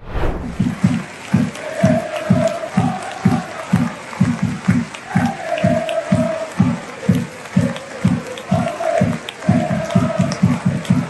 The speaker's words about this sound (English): That's them chanting, "If you hate the royal family, clap your hands," for the entire minute silence at a Celtics match.